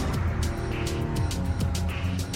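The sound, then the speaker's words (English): Truck engines rumble as the vehicles reverse into adjacent parking spots in a sheltered multi-storey car park with brick walls and exposed metal pipes. A low, steady droning carries several sharp, bright clicks and knocks. “Mike and Ty roll into a spartan, sheltered parking area resembling a multi-story car park. Exposed metal pipes make up the brick walls. The trucks reverse into adjacent parking spots.”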